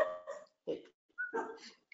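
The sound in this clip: A dog gives a few short yelping barks and whines in quick succession. The sounds are fairly faint and broken by brief pauses.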